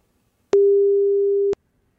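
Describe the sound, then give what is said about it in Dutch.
Ringback tone of a phone call to a Dutch mobile number: one steady, mid-pitched beep lasting about a second, heard alone with silence before and after. “Ik ga er even bellen.”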